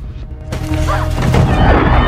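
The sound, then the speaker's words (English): A woman carrying a gun bumps into a sofa in a squalid house: a quiet moment, then a sudden loud crash and thud, followed by a continuing rumbling clatter. “As she gets up and continues through the house, she bumps into a sofa.”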